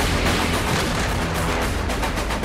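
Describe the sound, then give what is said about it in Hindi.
Heavy gunfire from a joint Indian and US army exercise at a field firing range in Rajasthan, dense rapid bursts blurring into one loud, continuous rattling roar with no pause or speech. “सेना के action की ये तस्वीरें राजस्थान के महाजन field firing range से आई, जहां भारत और America की सेनाएं मिलकर युद्ध अभ्यास कर रही हैं।”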